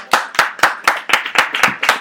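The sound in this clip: Clapping in unison from an audience at a comic-book talk: eight sharp, evenly spaced claps at a brisk, steady beat.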